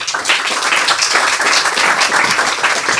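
Applause greets the next young author at a story reading, a continuous burst of brisk clapping from a group that stays loud and even, with no talk over it.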